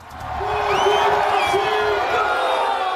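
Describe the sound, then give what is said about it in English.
Football fans cheer a Portugal World Cup goal against Uzbekistan, a loud sustained roar of shouting and whooping voices that swells in the first half second and then holds. “Fans erupt in cheers as Cristiano Ronaldo scores in his sixth World Cup tournament as Portugal blows out Uzbekistan.”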